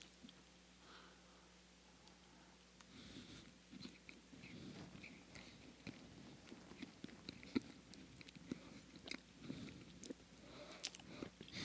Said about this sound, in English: But let's go in for the bite, sir. All right, here goes. Take it.